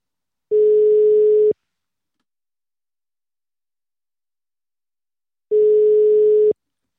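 A telephone ringback tone plays while a call is being placed: two steady, mid-pitched one-second beeps separated by a long silent gap, clean and with no voices.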